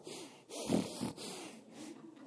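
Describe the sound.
A human voice imitates the snorting breath of an angry bull in a bullfight, with a few forceful, rough, breathy snorts pushed out in short bursts.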